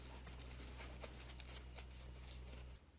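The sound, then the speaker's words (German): The green scouring layer is peeled off a kitchen sponge with faint, crackly tearing and scratchy rustles over a low, steady hum. The sound stops abruptly near the end. “Als erstes schneidest du die grüne Scheuerfläche ab. Das geht ganz leicht. Schneide einfach rundherum. Dann kannst du sie vorsichtig abziehen.”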